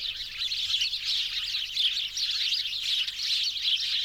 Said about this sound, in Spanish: Pajaritos.